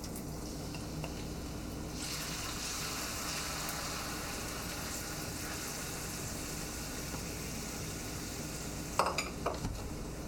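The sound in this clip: Steady sizzling of carrots frying in sesame oil in a pan, a continuous bright hiss lasting the whole clip, with a few brief clinks near the end.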